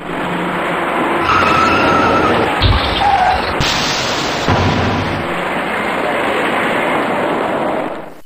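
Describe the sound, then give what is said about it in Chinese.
Cars braking on the service lane of the Third Ring Road at Anzhen Bridge, with long tire screeches over steady traffic noise and a heavy low thump partway through. “由于前方有些不太好走，行驶在辅路里面的车辆纷纷减速刹车”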